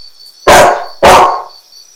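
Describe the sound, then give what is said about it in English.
Two loud, sharp barks from a dog, about half a second apart, with nothing else around them. “What is the name of this animal? This is dog.”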